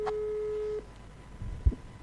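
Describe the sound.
A telephone call tone, heard while phoning a town mayor live, holds one steady electronic note for under a second, then cuts off into low line noise and a brief soft thump.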